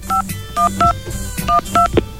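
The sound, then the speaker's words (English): Touch-tone telephone dialing: a quick series of short, clear two-pitched keypad beeps in an uneven rhythm while a call to information is placed. “I'm going to call information right here. Get a dial tone.”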